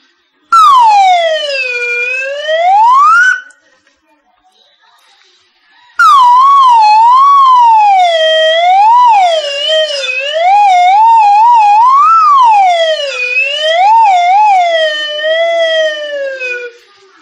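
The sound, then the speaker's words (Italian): A slide whistle plays continuously gliding notes: one long swoop down and back up, a brief pause, then a longer wavering run of bending pitches rising and falling, loud and alone. “Questo modo di usare il flauto a cursore l'avrete sicuramente notato in qualche episodio di Paperissima o Striscia la Notizia”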